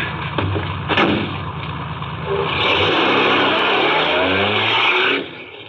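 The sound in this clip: A car pulls away on a road: a steady engine roar that builds partway through, holds loud for a few seconds, then drops away near the end.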